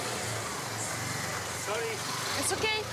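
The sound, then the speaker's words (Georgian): A motorcycle drives past on a crowded street in densely populated Mumbai, its engine droning steadily and growing slightly louder toward the end, while people talk over it. “ახლა მოტოციკლეტი ჩაივლის. გაიარეთ, გაიარეთ.”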